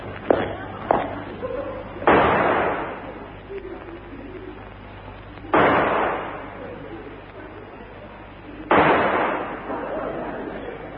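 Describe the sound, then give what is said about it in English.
Pistol shots fired in a duel: three sharp loud bangs spaced a few seconds apart, each with a fading tail, with voices talking between them. “Take this pistol. I warn you, I never miss. Nor I. One shot, Moriarty, they call me. Now back to back. 3 paces, and then we fire, monsieur.”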